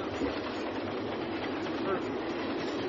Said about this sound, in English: Train, train.